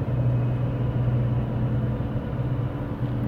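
Steady low engine rumble and road hum from inside a car being driven in the morning, continuous and fairly loud throughout, with no talk.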